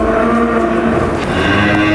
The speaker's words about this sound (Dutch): We staan hier inderdaad midden tussen de koeien.